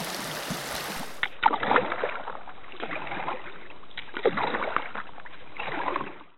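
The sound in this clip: Canoe paddling over a flowing stream: several splashy paddle strokes come in irregular bursts above a soft, continuous wash of running water.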